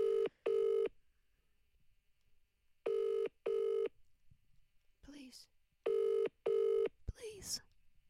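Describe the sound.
An outgoing phone call rings while waiting for pickup, with three double-pulse ring tones separated by pauses. Brief, faint voice sounds come between the later rings.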